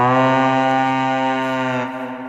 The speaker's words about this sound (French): Ici, le son d'une corne ou d'une conque pour symboliser les Vikings.